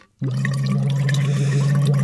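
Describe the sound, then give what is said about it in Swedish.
A person hums through a phonation tube into water to warm up the voice, producing a steady, low buzzing tone mixed with continuous bubbling that starts abruptly after a brief silence and holds evenly throughout. “Jag har ett fonationsrör här som man ska bubbla i före sändningarna. Låter så här.”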